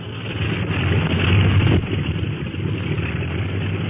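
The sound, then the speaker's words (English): Engines of a China Clipper flying boat warming up give a steady, loud, droning rumble that holds level throughout with only a brief dip partway, and no voices over it. “Say, they're winding up the clipper motors.”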